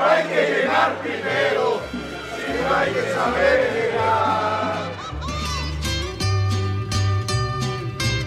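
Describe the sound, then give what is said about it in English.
A crowd in Mexico City raises a New Year's toast with pulque, a fermented drink, with several seconds of loud, overlapping shouts and cheers, followed by music with a steady beat. “People do all kinds of traditions to welcome the new year, like the one you just heard, a toast with a Mexican fermented drink.”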